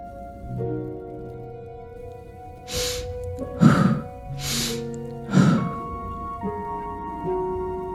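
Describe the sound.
Slow, deep breaths, drawn in through the nose and released out through the mouth. Two full breath cycles rush airily over a soft, sustained musical drone.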